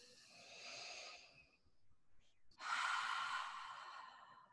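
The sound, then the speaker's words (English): A group draws a deep breath together during a guided chest-tapping exercise: two long, soft, breathy rushes of air, the second louder and fuller than the first. “And we're all going to take a deep breath together.”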